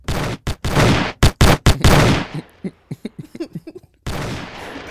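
A gunshot sound effect: a rapid volley of loud, sharp bursts, then a string of smaller clipped pops that fade, and one more loud burst at the end.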